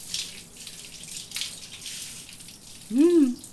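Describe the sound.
Water rinsing a body during a bath: soft splashing gushes in a few uneven bursts, followed at the end by a short voiced sound.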